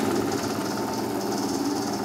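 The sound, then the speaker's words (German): Steady mechanical drone of a conveyor belt machine switched on with a green button, a constant, loud rattling motor hum that holds even throughout, with no voices. “Und jetzt kannst du hier auf den grünen Knopf drücken und ich mache das Laufband an. Achtung, ich starte die Entdeckung.”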